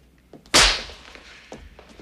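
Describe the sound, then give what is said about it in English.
A hard slap to the face during a violent confrontation lands as a single sharp, loud crack that quickly decays, with faint soft movement sounds before and after it. “He slaps Holland hard, then backs him into a corner beside a fireplace.”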